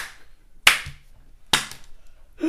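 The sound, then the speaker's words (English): Two handgun shots from a film, each a sharp, loud crack with a quick fade, spaced just under a second apart against near silence. “And he just pulls out a handgun and just shoots him twice.”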